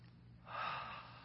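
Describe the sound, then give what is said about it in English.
A group drawing one deep breath together, a soft, broad inhale that swells for about half a second and then fades, with no talking. “Everybody take a good deep breath. Ready?”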